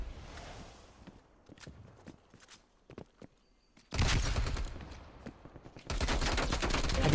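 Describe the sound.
Gunfire in a video game. It starts with scattered, quieter shots and footstep-like clicks, then breaks into two loud, dense volleys of rapid fire.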